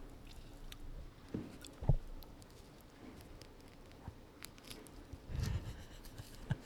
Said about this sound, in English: is peeling a cutie orange